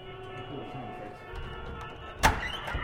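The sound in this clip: A door is opened with one sharp clunk near the end, over a steady low hum and background noise.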